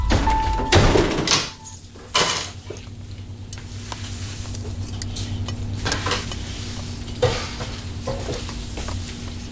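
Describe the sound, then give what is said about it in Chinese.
Food fries in a pan on the stove. Clattering utensils and stirring come first, then a steady sizzle carries on beneath a few light knocks. “那正好，我做饭呢”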